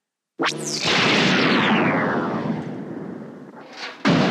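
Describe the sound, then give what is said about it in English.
Jawa stun gun sound effect from Star Wars: a sudden loud zap with a whining tone sweeping downward over crackling noise that slowly fades, ending in a second sharp burst. “Now, I always thought the Jawa stun gun sounds a heck of a lot like the Stormtrooper stun gun from earlier in the movie. It's just like a standard Star Wars stun sound.”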